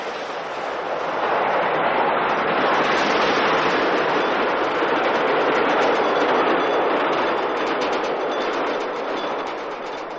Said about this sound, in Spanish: El paso del tren hace vibrar la lámpara apagada colgada del techo.